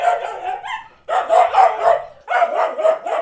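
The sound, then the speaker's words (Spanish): Dogs barking in a quick run of sharp, mid-pitched barks, grouped into three bursts with brief pauses between them, loud and with no talk over them. “Tengo un problema con esto de los perros. ¿Cuál? Que no sé si se ríen o me abuchean.”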